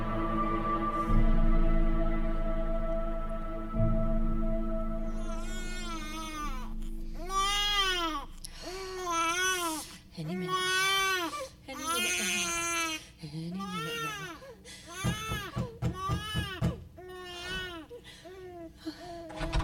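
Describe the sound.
A baby cries upstairs in a house, wailing loudly in long, strained bursts that rise and fall in pitch and carry on almost without a break.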